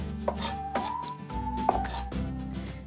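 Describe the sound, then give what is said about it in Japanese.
Soft knife taps on a board as an onion is finely minced for a soup. A few quiet, irregular chops sit under a faint steady background tone. “今みじん切りにしてますが薄切りでもいいです”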